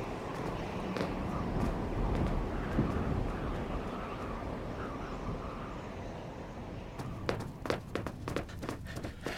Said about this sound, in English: Well, the realism of climbing the stairs is pretty accurate.